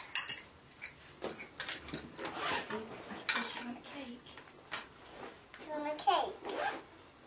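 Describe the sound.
A spoon stirs cake mixture in a bowl for a round cake, making many light clinks and scrapes against the bowl in an irregular rhythm while a child and an adult talk over it.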